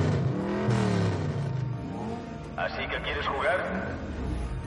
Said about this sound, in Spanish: Tom pisa el acelerador del Flying GTX.